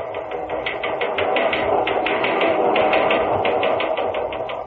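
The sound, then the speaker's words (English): A police teletypewriter prints with a rapid, steady clatter of many quick mechanical strikes in an even rhythm over a continuous motor hum. “I was watching the police teletypewriter giving a practically blow-by-blow account of how a bank robber was being captured in a small upstate railroad depot.”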